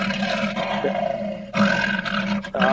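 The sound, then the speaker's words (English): A lion or tiger roar rumbles loud and sustained, a deep growling tone layered with rough harmonics, swelling in a few surges with brief dips between them and no voices over it. “Here's the sound of what it sounds like, Skip, when you see that lion and tiger on either one of his pectorals.”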